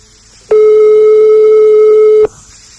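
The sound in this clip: A telephone ringing tone sounds on the line during a phone call: one loud, steady, unbroken tone lasting just under two seconds, alone, with quiet line hiss before and after.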